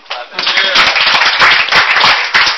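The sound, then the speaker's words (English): Clapping from a gathering, many quick claps crowding together into a dense patter, with voices talking over them. “clapping.”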